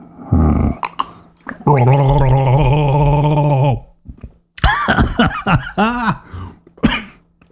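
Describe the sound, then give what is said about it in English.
A person gargling whiskey: a long, loud, bubbling throaty gargle, with short bursts before it and coughing, sputtering throat sounds after it. “Whereas you would normally get Question sucking on his bong, you're going to get me gargling whiskey.”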